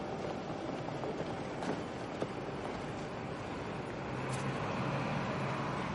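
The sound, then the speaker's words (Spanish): A train station platform and concourse at night give a faint, steady wash of rail rumble and broad background noise, with no clear voices. “De noche cruza sonriente el vestíbulo desde el andén a la calle.”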